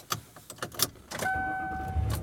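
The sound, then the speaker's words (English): Car driving home, heard from inside: a few soft clicks and knocks, then a steady low engine hum joined by a thin, sustained high tone that lasts to the end. “And I am driving home.”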